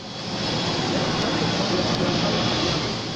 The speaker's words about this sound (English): This is Entebbe Airport, Uganda's only airport. It is the main entry and exit that the country boasts of.